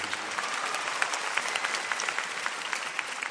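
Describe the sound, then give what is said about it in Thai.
An audience applauds as a guest is welcomed onto a stage, a dense, steady patter of clapping that holds evenly from start to finish without voices. “ตบมือนะครับก็ยินดีต้อนรับท่านมุ้ยนะครับท่านมุ้ยครับ Big Director”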